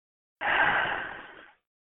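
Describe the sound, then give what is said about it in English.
A single long, forceful exhale during a breath-hold exercise, pushing all the air out of the lungs. It is a breathy rush with a sudden loud start that fades steadily over about a second, heard alone. “so full in, when you breathe out, breathe all the way out and push out as all the air you can, and then hold your breath.”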